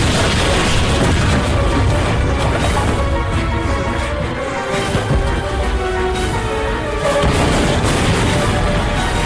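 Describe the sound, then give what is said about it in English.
Explosions as a building blows up, a loud, dense roar of crackling bursts that runs almost without a break, dipping briefly midway before surging again. “The whole place is exploding!”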